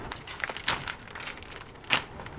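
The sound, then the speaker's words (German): Glued-on plastic film is peeled away from an aircraft engine, making crinkly rustling and crackling with a few sharper tearing bursts. “Er entfernt die festgeklebte Folie.”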